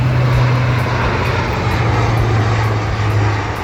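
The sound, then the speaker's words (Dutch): A low-flying military transport aircraft roars overhead in a steady, loud engine drone with a deep hum underneath. The sound holds at an even level throughout, with no voices. “Vanaf maandag gaat de Defensie 2 weken lang trainen met militaire transportvliegtuigen. En die mogen dan ook laag vliegen.”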